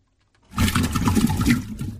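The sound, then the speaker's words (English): An aggressive water gurgle bursts in after a moment of silence: a loud, rough, churning slosh with bubbling pops that continues steadily to the end. “That was an aggressive gurgle.”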